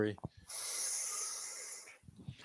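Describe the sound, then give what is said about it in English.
A group of people take a deep breath together on a count, heard as a long, steady breathy hiss lasting about a second and a half, framed by brief bits of speech before and after. “Everybody take a deep breath. So before I close us out, everybody on the count of three, take a deep breath.”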